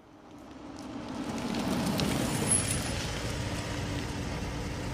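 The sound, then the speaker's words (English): A Jaguar XK8 car on the move, a broad, steady rumble of engine and road noise that swells over the first seconds and then holds at a fairly loud, even level with no voices. “Thought we might take another drive. You bought a new motor? Jaguar XK8.”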